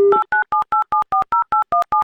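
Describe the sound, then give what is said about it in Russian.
Touch-tone keypad beeps ring out as a telephone number is dialed to call a contestant in a radio prize game. A quick, evenly spaced run of many short two-tone bursts plays loud and alone, the first overlapping a steady low dial tone. “А для этого, естественно, набираем номер телефона.”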